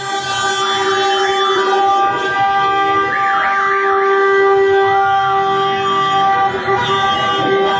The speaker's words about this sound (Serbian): U centru Beograda su se već posle poslednjeg sudijskog zvižduka začule petarde i sirene automobila.